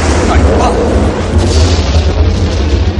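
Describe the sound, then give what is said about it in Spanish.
An explosion sweeps through an entire building floor in a 1988 action film as a fireball rises up the freight elevator shaft, giving a loud, sustained roaring blast with heavy low-end rumble that fills the whole clip. “La explosión barre toda la planta. Una bola de fuego sube por el hueco del montacargas.”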